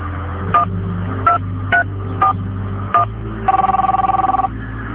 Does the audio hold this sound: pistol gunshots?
no

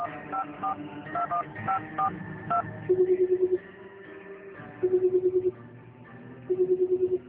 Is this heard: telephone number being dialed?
yes

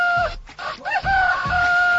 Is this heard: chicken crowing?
yes

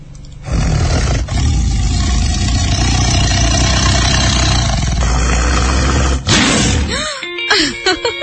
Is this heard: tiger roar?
yes

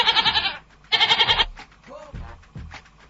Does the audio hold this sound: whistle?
no

